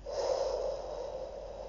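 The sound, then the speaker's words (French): Person breathing slowly and gently: one soft, airy breath that stays steady and quiet for nearly two seconds, with no other sound. “Vous inspirez, puis vous expirez”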